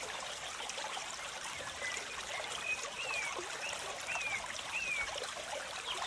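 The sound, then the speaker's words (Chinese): A small stream flows with a soft, steady trickling wash of water, and a few faint, high bird chirps come through above it. “你起身看着这条小溪，”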